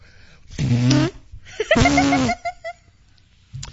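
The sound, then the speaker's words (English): Lips blowing a raspberry: two buzzy, wet, flapping bursts of about half a second each, the second followed by a few short voiced sounds. “That's called blowing a raspberry.”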